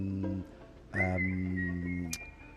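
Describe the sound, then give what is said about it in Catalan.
Whistling by a folk musician and improviser versed in Celtic and Irish music: one clear, high, sustained note held for about a second over a low harmonic tone, followed by a brief sharp accent. “i mira, això és ell mateix xiulant també, no?”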